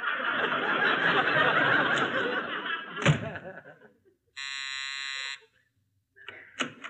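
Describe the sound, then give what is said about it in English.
A doorbell rung at a front door gives one steady, buzzing electric tone lasting about a second. It follows a noisy stretch, and brief voices come after it. “Go outside, I'll close the door and ring the bell again.”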